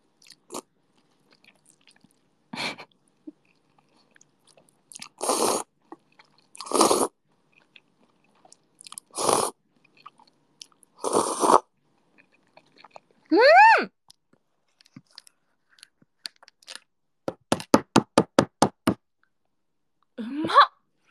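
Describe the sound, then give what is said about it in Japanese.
Noodles dipped in egg being slurped, heard as a handful of short, wet sucking bursts spaced apart, followed by a rapid run of quick pulses near the end. “今卵につけました。麺を。それじゃあね。いただきます。チョコすすれないからちょっと。頑張ってすすってみるね。音。”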